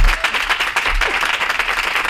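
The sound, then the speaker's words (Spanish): An audience applauds a guest being introduced on a talk show, a dense, steady wash of many hands clapping that stays loud throughout with no voices over it. “¡Un aplauso para ella!”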